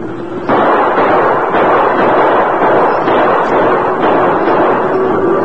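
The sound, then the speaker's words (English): Gunshots fired over a stampeding cattle herd: several sharp, loud bursts cut through a dense, steady roar, with no voices. “Keep shooting”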